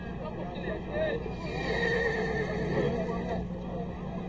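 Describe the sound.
A horse whinnies in a dubbed film scene, its neigh rising over a steady bed of crowd babble and talking voices.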